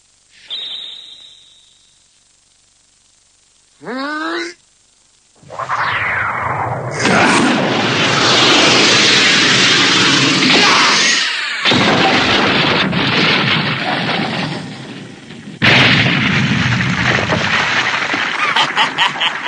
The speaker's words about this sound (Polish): Zaczniemy od tej skały. Gotów? Trzeba ją trochę przyciąć. Święty miecz wejdzie w nią jak w masło.